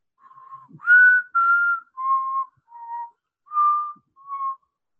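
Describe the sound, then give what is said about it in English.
A person whistles in imitation of the strange, musical whistling of pipes: six clear, steady mid-pitched notes after a faint, breathy start, each held briefly with short gaps between, some pitched slightly higher than others, with no talking. “if you get really close to the pipes where you can really hear, there's definitely a musical quality to it. It's like”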